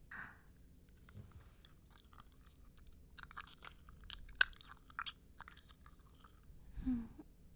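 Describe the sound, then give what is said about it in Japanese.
Quiet, close chewing of a piece of peach-flavoured gum: soft, irregular wet smacks and sticky clicks, with one sharper click midway and a fuller squelch near the end. “じゃあガムを口の中に入れますね。”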